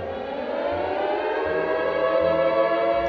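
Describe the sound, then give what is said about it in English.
Civil defense attack warning siren sounding its wavering alarm tone: a loud, sustained wail rich in harmonics, with its pitch gently climbing across the short clip and no voices. “In most places, the standard attack warning signal is a 3 to 5 minute wavering sound.”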